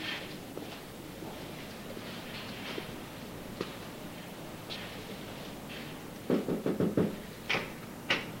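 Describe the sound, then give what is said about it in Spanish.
Knocking on a bedroom door off a hallway: a quick run of several sharp raps, then two more spaced knocks, moderately loud against a quiet hiss. “Marco recorre el pasillo y llama a la puerta de Alicia.”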